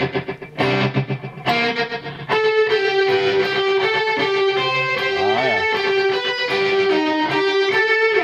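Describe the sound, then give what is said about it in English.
Distorted electric guitar played through a granular delay pedal with presets: a few loud chord stabs, then a long sustained, shimmering tone with layered repeats and a brief wavering pitch sweep, continuous to the end. “So it's a granular delay. Wow. This sounds like this. Put some distortion on it.”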